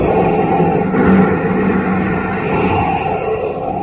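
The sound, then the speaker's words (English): Rocket engines roar at blast-off in a loud, dense, continuous rumble that holds steady at full strength throughout, with no pauses or breaks. “As roaring rockets blast off to distant planets and far-flung stars, we take you to the age of the conquest of space”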